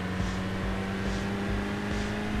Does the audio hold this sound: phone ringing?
no